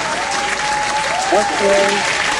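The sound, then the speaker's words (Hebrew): Applause bursts out after a correct answer in a guessing game, a dense, steady wash of clapping with excited voices and whoops rising over it throughout. “כפיים באמת בענק.”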